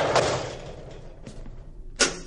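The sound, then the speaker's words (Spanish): A roll-up shutter on a storage unit is pulled closed: a rattling metallic rush of noise, then a sharp clatter as it comes down near the end. “cierra la persiana”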